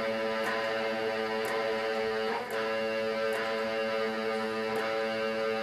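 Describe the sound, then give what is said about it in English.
A guitar in drop D tuning plays the seventh fret on the low E string together with the open A string. The ringing interval sustains and is struck again about five times, roughly a second apart. “fret the seventh on the low E”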